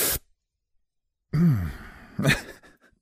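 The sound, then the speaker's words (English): A sharp, audible inhale is performed in place of a sigh: a quick voiced gasp followed by a second breathy burst, alone with no talk. “I think I've given up sighing and I've just started sharply inhaling instead. But I feel like that's worse, just walking around going...”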